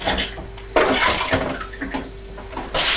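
During a child's bath play, water is poured with a blue bucket into a bowl, making gushing, splashing surges that start and stop a few times against a constant watery background.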